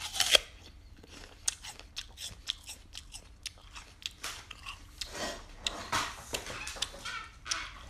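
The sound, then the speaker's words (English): Crisp biting and chewing of a very crunchy apple, with many sharp, irregular crunches that grow denser later on and no talking. “So yeah, let's give it a taste. This one's the crunchiest.”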